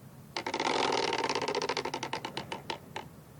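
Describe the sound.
A question wheel spinning: a rapid burst of rattling clicks that gradually slows and spreads into separate ticks before stopping, lasting about three seconds.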